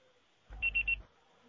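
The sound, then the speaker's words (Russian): A voicemail beep before recording a message: three short, high-pitched electronic tones in quick, even succession over a brief low buzz. The sound is quiet and stands alone in near silence. “Пожалуйста, попробуйте перезвонить позже или оставьте свое сообщение после звукового сигнала.”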